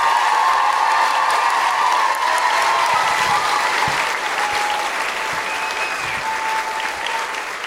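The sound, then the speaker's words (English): An audience claps and cheers for a singer-songwriter being introduced at a live comedy show in Auckland. The applause is dense and steady throughout and eases off slightly toward the end. “Please put your hands together and make incredible noises for the wonderful Grace Petrie!”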